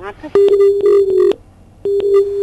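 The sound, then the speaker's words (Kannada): Telephone disconnected tone on a cut-off call: a steady mid-pitched electronic tone sounds in two pulses, a longer one and then a shorter one after a brief gap, loud and clean. “ಕರೆ ಕಡಿತವಾಗಿದೆ.”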